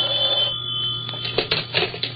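A telephone rings while a call is put through by an operator, a steady bell-like ring with a high sustained tone and a lower hum, followed by a few sharper clatters toward the end.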